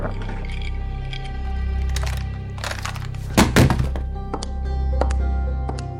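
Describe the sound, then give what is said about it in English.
A handgun being set down on a hard surface makes a brief, solid thunk in the middle, a doubled knock landing close together, over a steady low drone with a few faint taps scattered around it. “I'll put the gun down, Rachel.”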